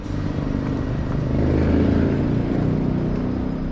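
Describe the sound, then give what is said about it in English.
High-pitched buzz of a V12 turbo racing engine at the Monaco Grand Prix, a sustained droning roar that swells a little louder through the middle before holding steady. “the high-pitched buzz of a V12 turbo engine”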